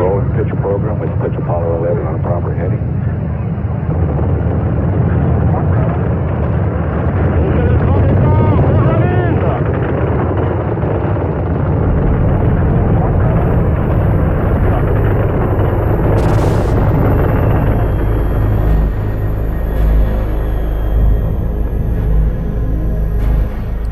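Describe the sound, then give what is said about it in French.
The first-stage rocket engines roar at the Apollo 11 liftoff, delivering 35,000 tonnes of thrust. A dense, loud, continuous rumble with a heavy low end holds throughout, and a voice talks over it. “Et à 100 km à la ronde, la Terre tremble sous les 35 000 tonnes de poussée des moteurs du premier étage”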